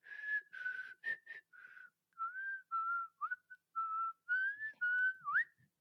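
A person whistles a tune, an attempt at the theme from a horror TV series: many clear, sustained notes in a lively melodic run, some bending and wavering in pitch near the end, moderately loud with no talking.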